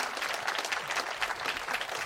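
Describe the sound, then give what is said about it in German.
Applause from an audience at a live music event: a dense, steady patter of clapping hands, even in loudness throughout the short stretch, with no voices. “Applaus, Applaus für Trisha Collins, Merit Esther und Denise Dombrowski.”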